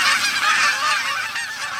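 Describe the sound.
Migrating geese honk continuously. Many overlapping calls build a dense, steady, fairly loud clamor with no pauses.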